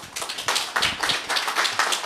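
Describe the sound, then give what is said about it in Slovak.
An audience applauds at a political debate evening, giving the first round of applause of the night. It is a brisk, steady stream of claps at moderate loudness, with no pause. “Ešte prvý potlesk večera je váš.”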